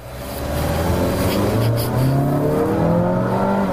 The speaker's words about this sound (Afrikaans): Dan sê jy 'n bietjie hoor, die engine is 'n bietjie raserig teen hoë revolusies.